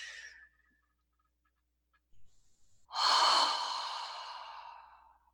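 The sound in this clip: A group breathing deeply and exhaling during a guided relaxation exercise: a brief breath sound, a quiet pause, then a long loud airy exhale that slowly fades.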